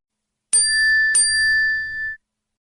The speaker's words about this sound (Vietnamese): Thì ra có người gửi tin nhắn WeChat cho hắn.